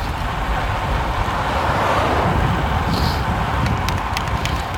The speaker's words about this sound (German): Jetzt fahren wir hier auf der Autobahn.